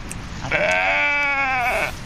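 A sheep gives a single long, wavering, nasal bleat while being herded in from a farm field. The bleat is loud and sits above a low background hiss.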